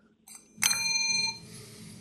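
A bell rings once to mark a correct answer in a quiz game. It is a bright, clear strike with a sustained ringing tone that holds for under a second and then fades.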